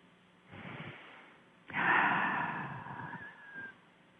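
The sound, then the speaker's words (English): Deep breathing during a guided relaxation exercise: two soft, airy breaths with no talking, the second louder and longer than the first. “close your eyes, and let's take a deep breath. Well, that feels good.”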